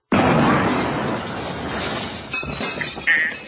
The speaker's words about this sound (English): Now, you light it on fire. Light it on fire? Yeah, like this.